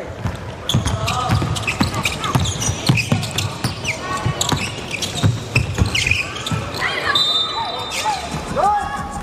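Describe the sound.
A basketball dribbled on the court during a game: repeated bounce thuds within dense crowd and shoe noise, with a few high squeaks and a commentator talking throughout.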